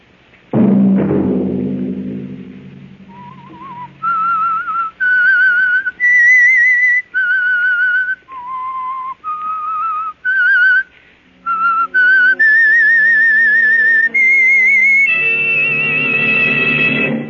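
The whistled theme of the radio show The Whistler opens with a low thudding hit. A lone whistler then carries a slow melody in held notes, and instrumental chords join beneath it over the last few seconds.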